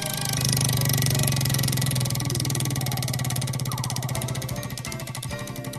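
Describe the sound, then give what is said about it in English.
A prize wheel spins with a rapid, steady ticking that runs loud and unbroken throughout, layered over a low sustained tone. “So it's come to that time to spin the wheel.”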